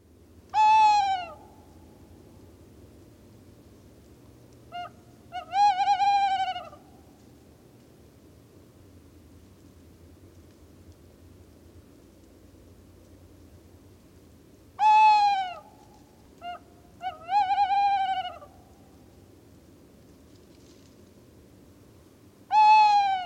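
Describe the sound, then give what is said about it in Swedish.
A tawny owl hoots in a few repeated phrases. Each phrase opens with a long, clear note, then a brief soft one, then a longer wavering hoot, with quiet gaps between the phrases. “Och då kan vi väl höra på kattugglan och låta den avsluta den här lilla fågelkavalkaden.”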